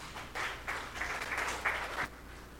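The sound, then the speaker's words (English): An audience applauds to welcome guests. Steady crowd clapping swells over a couple of seconds and then drops away. “Please welcome and put your hands together for our guests today”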